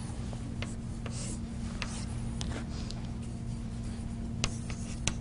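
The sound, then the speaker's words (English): Handwriting strokes scratch faintly while a math expression is written out, soft rubbing marks and a few sharper ticks over a steady low hum, with no talking. “let's write it in a slightly different way here. I'm going to write it this way.”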